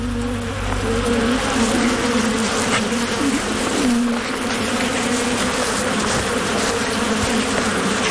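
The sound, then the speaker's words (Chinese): Swarm of bees buzzing as they attack a honey badger at their hive, a dense, continuous drone that holds steady and loud throughout, with no talking. “面对蜂群的攻击，蜜獾丝毫没有退缩。”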